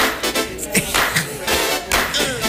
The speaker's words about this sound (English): Everybody else just clap. Clap your hands. Come on. That's it.